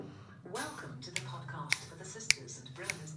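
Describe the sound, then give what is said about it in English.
Intro jingle built around four sharp finger snaps at an even beat, layered over tuneful voices and a low backing tone. “So what we're going to do is we'll play the original jingle, which is... It's your classic. You hear it at the start of every episode. Have you got it ready? Yeah. So here's the original jingle.”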